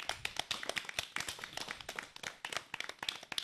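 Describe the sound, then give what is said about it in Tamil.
Hand clapping from an audience applauding a Tamil pronunciation performance: dense, irregular claps continue throughout, fairly faint, with no voices. “ஜாய்சியின் Tamil உச்சரிப்புக்கு நாம் அனைவரும் பரத்த கரவொலி எழுப்பி நம் பாராட்டுக்களை தெரிவிப்போம்.”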